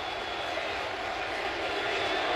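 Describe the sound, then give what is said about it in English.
Baseball stadium crowd at Citi Field standing and cheering for a visiting Orioles player, heard as a faint, steady, unbroken roar with no distinct peaks. “I mean, everyone at Citi Field is standing and cheering for an Oriole.”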